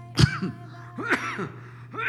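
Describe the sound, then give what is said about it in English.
Throat clearing from a person during a prayer talk: a few short, raspy voiced bursts spread over about two seconds, moderately loud and with no speech around them. “Excuse me. There's something in my throat.”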